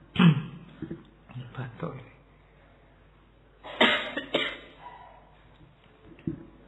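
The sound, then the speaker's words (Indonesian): Members of an audience at a lecture cough one after another on request, producing several separate sharp coughs and throat-clearing bursts of varying loudness with quiet gaps between them. “Ayo lomba batuk.”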